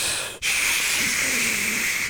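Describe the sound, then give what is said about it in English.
A person imitates quiet seething with a long, steady breathy hiss through the teeth. A very brief break comes early, then one sustained hiss holds at an even level until it stops. “That is the sound of me seething quietly.”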